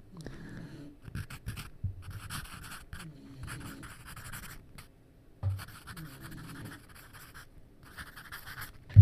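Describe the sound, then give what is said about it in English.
Pencil writing on paper for an ASMR video: dry, scratchy strokes come in bursts of many quick scrapes, separated by short pauses as the pencil lifts, with no talking. “ASMR fucking pencil writing.”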